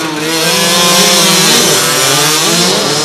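Supermoto motorcycles race off the start line at a youth supermoto event in Lignières, a loud, continuous, high-revving buzz of several overlapping engines that drones steadily throughout without a break.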